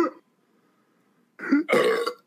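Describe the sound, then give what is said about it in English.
A big, loud burp let out during a burping contest: a brief sound at the start, a second of quiet, then a drawn-out, rumbling belch lasting under a second, heard alone with no talking. “It's my turn for the burp contest, and I just have to say, oh yeah, well it's my turn and I got a big one, baby.”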